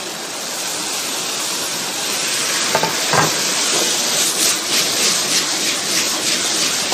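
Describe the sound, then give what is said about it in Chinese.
Pork intestines stir-fry in a light wok with a loud, continuous sizzle. A few sharper knocks and scrapes of the pan being tossed break through midway. “然后我给你表演我颠锅，这个锅很轻巧，煎起一点都不费力。”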